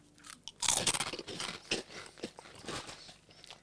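Crunching as someone bites into and chews a shrimp-flavoured snack. Many brittle, crackly crunches follow in an irregular rhythm, fairly faint and with no talk.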